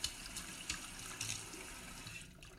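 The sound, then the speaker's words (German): Cold tap water runs as a fish is rinsed inside and out after cleaning, a faint, steady rushing hiss with a few soft splashes and no voices. “Nach dem Putzen spülen Sie den Fisch innen und außen noch einmal unter kaltem Wasser ab.”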